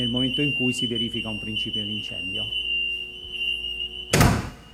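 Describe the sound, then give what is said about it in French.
A simulated fire alarm from a fire-alert system sounds a steady, continuous high-pitched tone. A voice talks over the first half, and a loud thud lands near the end. “Ce que vous entendez, c'est une simulation d'alerte anti-incendie. C'est le système et l'alarme qui retentit quand il y a un départ de feu.”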